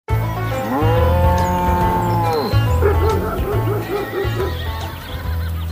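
A farm animal sound effect of mooing: a long, loud, steady low call, then a shorter wavering call. A low rumbling hum continues underneath throughout.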